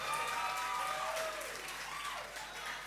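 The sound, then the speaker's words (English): Audience applause and cheering welcome debaters at a school debate event, a steady, loud wash of clapping that holds through the whole stretch and eases slightly toward the end. “Make some noise. Let's welcome them.”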